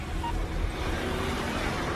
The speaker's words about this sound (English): Wax spots a car pull up. She gets in, the car drives off.